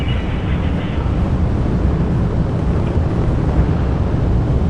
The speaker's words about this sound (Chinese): 好的，现在长江七号遥十一火箭已经点火起飞，托举天舟十号升空。